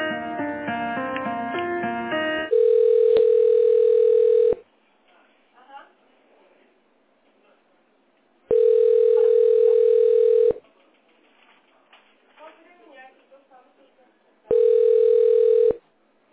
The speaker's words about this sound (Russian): У вас менеджер Андрей, я на него сейчас переключусь. Что-то пытаюсь дозвониться, не берет.